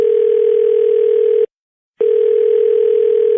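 Telephone call tone: a steady, loud single-pitched hum that cuts off for one short silence and then resumes at the same pitch.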